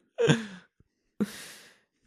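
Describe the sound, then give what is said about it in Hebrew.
A person yawns aloud. A voiced, drawn-out groan is followed after a short pause by a second long, breathy exhale. Both are fairly loud, with no talk. “פיהוק.”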